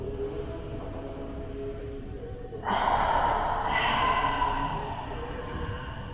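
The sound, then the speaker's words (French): A deep inhaled breath taken during a guided breathing exercise: after a few seconds of quiet background, a soft airy rush of air rises and lasts about two seconds before tapering off, faint overall. “Voilà, inspirez bien pour pouvoir chasser.”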